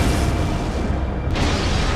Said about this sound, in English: Here, just before dawn, for the first time in our history, American homes will be exposed to atomic blast.